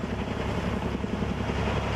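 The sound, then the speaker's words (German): Firefighting helicopters fly over a wildfire near the Kalamos holiday region near Athens, Greece, making a steady, dense droning roar that continues without a break and without talk. “Seit dem Morgengrauen fliegen Löschhubschrauber ohne Pausen über der Ferienregion Kalamos.”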